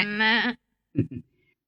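A goat bleats once in a long, wavering, harmonic cry, followed by two brief, softer sounds.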